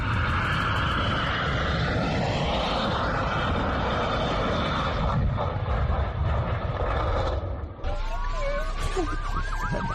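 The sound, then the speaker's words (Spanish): An airplane landing without its landing gear and sliding on its belly along the runway makes a loud, continuous rushing roar throughout, with wavering, siren-like tones appearing near the end. “El vídeo en el que un avión aterriza sin el tren de aterrizaje, es decir, sin ruedas, y se va deslizando con la panza sobre las pistas”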